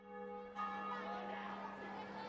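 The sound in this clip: A bell strikes half past seven at a school playground on a mild late-February morning. A clear strike lands about half a second in and is followed by a sustained, steady ringing tone that lasts to the end.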